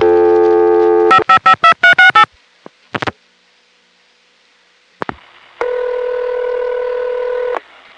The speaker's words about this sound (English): Here is the typical Maryland local call.